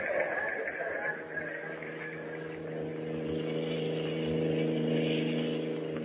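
Steady engine drone of a car driving along a road toward a naval base, a continuous mid-pitched hum with layered tonal lines that holds evenly for about six seconds, with no voices.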